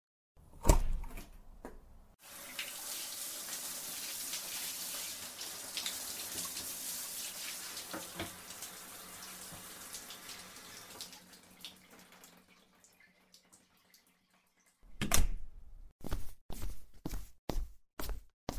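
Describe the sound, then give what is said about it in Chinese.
Shower water runs with a steady, hissing spray for about ten seconds. A few sharp knocks come just before it, and a quick series of clicks and taps follows after the water stops. “你让我先去洗澡。”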